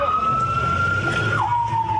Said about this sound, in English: Ambulances rush to rescue the critically injured.